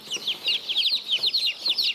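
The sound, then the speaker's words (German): Clucking and high chirping calls from a flock of colourful mixed-breed chickens, a rapid continuous stream of many short, bright calls with no talk. “Das sind lauter bunte Hühner”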